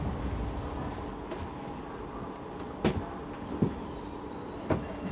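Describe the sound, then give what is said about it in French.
A train rolls into Bucharest North station with a steady, low rumble throughout, broken by a few sharp metallic clanks. “On arrive en gare de Bucarest Nord.”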